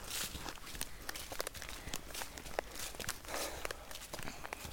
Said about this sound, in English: she's a bit more perky now we're back in the forest. She likes the scuffling leaves.